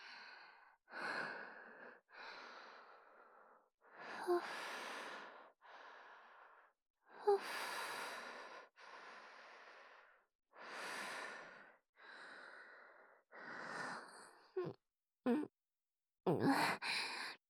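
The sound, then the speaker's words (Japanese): Deep, audible breathing from a woman: a long series of slow inhalations and exhalations with short pauses, turning into quicker, sharper gasps near the end. “ドキドキが止まんなくなっちゃった。ちょっと深呼吸させて。”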